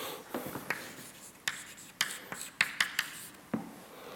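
Hand-writing of an equation: a run of many short scratching strokes and sharp taps in an irregular rhythm, fairly faint, with no voices.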